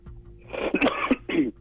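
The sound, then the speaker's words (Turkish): A person recovering from a recent illness coughs a few times in quick succession. The harsh, breathy bursts are fairly loud, with no talk around them. “Çok özür diliyorum. Taze bir hastalıktan çıktığımız için öksürüyorum.”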